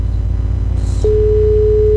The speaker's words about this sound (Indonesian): Terputus ya. Baik, bisa dicoba kembali.